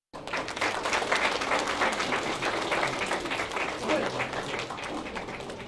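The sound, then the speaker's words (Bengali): Audience applause after a Bengali cultural performance at a Baishakhi celebration, a dense, sustained wash of many hands that starts abruptly and holds at a steady level. “Bangla সংস্কৃতির এই পরিবেশনা উপস্থিত সকলের বিপুল করতালি লাভ করে।”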